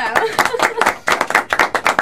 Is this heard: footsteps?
no